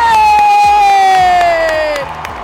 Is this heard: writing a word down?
no